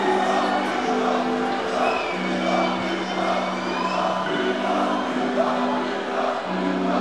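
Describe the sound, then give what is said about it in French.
Live concert crowd roars loudly and continuously for about seven seconds, a steady wall of cheering with sustained droning voices held within it. “On entend le public derrière moi très très fort.”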